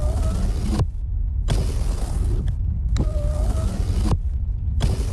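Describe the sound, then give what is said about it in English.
Car power windows being run up and down repeatedly. Several bursts of a steady electric motor whine with a low rumble are separated by short gaps, and the motor's pitch shifts slightly within each run. “Can you please just stop playing with the windows?”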